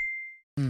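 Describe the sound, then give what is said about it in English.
A single bright La Mix Radio station ident chime rings out and slowly fades into silence, followed by a sudden loud, dense burst of sound. “Can you feel that? That's the sound of La Mix Radio.”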